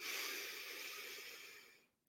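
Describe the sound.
Inhaling during a guided breathing exercise: a long, steady, airy hiss that holds for nearly two seconds, then cuts off into quiet.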